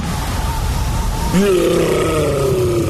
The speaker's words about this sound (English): That's the sound of a Yeti in the fridge. Yeah, there's a Yeti in the fridge.